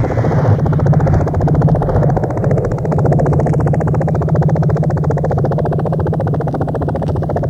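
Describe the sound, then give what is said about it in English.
Helicopter rotors beat in a loud, steady, fast chop over a low engine drone, unbroken throughout with no voices. “It's the sound of the choppers.”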